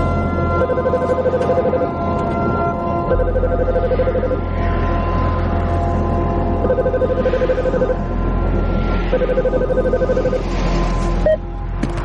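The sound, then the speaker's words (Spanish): A telephone rings in a car driving through heavy traffic near London. Four ring bursts repeat over a steady, low engine drone. “Al momento vuelve a sonar el teléfono.”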